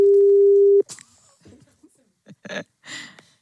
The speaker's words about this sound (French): Et donc, on appelle du côté de Bénezet, en province de Liège.